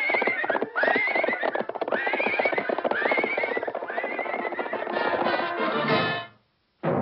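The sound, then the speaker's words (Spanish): A horse neighs several times in loud, shaky whinnies while its hooves clip-clop steadily beneath, walked step by step toward the stable. The sound stops abruptly near the end, leaving a short silence and then one last brief sound. “Todo jinete ducho siempre lleva a su caballo paso a paso hacia el establo.”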